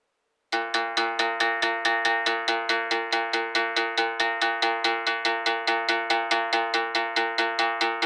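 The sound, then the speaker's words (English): A berimbau is played with the dobrão pressed against its string. After a short silence comes a long, even run of many quick metallic twangs at one steady, bright, buzzy pitch. “The dobrao will vibrate against the raame and make a pleasant sound.”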